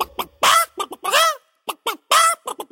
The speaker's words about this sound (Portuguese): A galinha gritou: